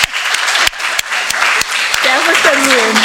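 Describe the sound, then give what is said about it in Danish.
Applause from a council hall audience honouring a municipal director's 10-year anniversary: dense, sustained clapping throughout, with a voice starting to speak near the end. “Så derfor skal du selvfølgelig have en... ja, lad os bare give Henrik en hånd.”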